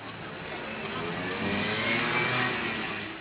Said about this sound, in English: There are a lot of cars in Luanda,